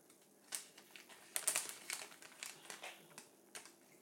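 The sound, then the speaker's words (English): A plastic bag on a kitchen worktop is torn open, giving many faint, irregular crinkles and crackles with a denser burst near the middle. “I have to do is stand back from the worktop, just place my right hand on the bag so that it doesn't move”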